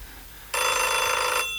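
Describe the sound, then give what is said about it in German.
A telephone bell rings in a single loud burst just under a second long. It starts abruptly over a quiet background and cuts off, leaving only a faint hum. “Telefon. Ja, ich gehe nicht ran.”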